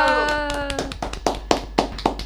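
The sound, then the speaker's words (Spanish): Hands clap in a steady, regular rhythm right after sustained musical tones fade out. The claps are sharp and moderately loud, spaced evenly, like applause for a live music performance. “vamos aplaudiendo todo acá.”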